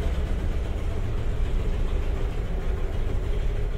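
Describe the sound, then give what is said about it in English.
A pale blue petrol van drives past, its engine giving a loud, steady, low rumble with a rough mechanical texture that holds throughout without pause. “This van's just gone past, which is like this pale blue van, something out of Dr. Seuss, the look and sound of it.”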